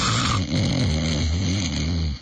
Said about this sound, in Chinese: 不但睡着了，这呼噜震天呢